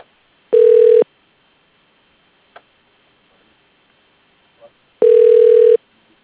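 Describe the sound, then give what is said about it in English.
Two loud, steady telephone ring tones, each about half a second long and several seconds apart, as a call is transferred to voicemail, with faint clicks in the quiet between them. “I'll transfer you to his voicemail.”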